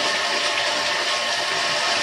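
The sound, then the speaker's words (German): Tap water runs in a steady, loud rushing hiss throughout as someone washes tomato sauce off their hands. “Ich muss mal kurz die Hände waschen. Aus irgendeinem Grund war da gerade Tomatensauce drin.”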